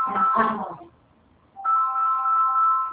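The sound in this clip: A mobile phone rings from an incoming call, heard as a steady, sustained electronic tone that starts after a brief voice and a short pause.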